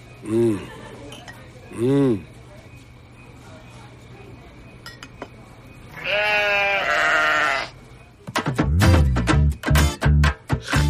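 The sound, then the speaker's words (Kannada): Young goat bleating while grazing on grass in front of a mutton stall: two short, quavering bleats, then a longer bleat, followed by a run of sharp metallic clinks and clatters. “ಮೇಕೆ ಮರಿ mutton stall ಮುಂದೆನೆ ಹುಲ್ಲನ್ನ ಮೇಯ್ತಾ ಇದೆ.”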